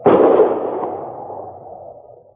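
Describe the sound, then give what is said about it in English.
A single rifle shot fired by a hunter over snowy flat land below a slope: one sudden loud crack, then a long rumbling tail that slowly fades over about two seconds. “he raised the rifle to his shoulder and fired”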